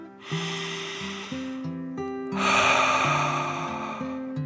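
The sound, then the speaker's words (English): A storyteller voices a dragon's deep breath, imitating the creature with a long airy inhale followed by a louder, rougher exhale over soft background music. “The dragon took a deep dragon breath in and out.”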